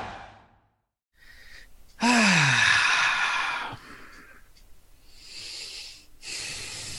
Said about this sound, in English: I'm taking deep breaths because I'm trying to calm down.